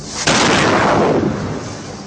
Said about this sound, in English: This is how the Israeli military is warning Palestinians of an impending missile strike in Gaza.